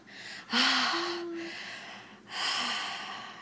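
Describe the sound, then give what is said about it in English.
Deep breaths taken by a person, a few long, loud, airy inhales and exhales in slow succession, the first carrying a brief faint voiced hum, with no talk. “Take a few deep breaths.”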